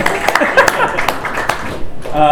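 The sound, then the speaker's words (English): Applause and clapping from an audience welcoming the moderator at a live discussion night, with scattered claps mixed among cheering voices over a steady crowd din. “Give it up for Ian. Yay. Thank you. Give it up for Ian.”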